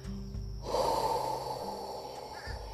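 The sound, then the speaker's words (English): A long cleansing exhale in a breathing exercise: after a brief quiet moment, a breathy rush of air starts abruptly, holds for nearly two seconds, then tapers off. “so on the exhale, you are going to provide yourself with a cleansing breath.”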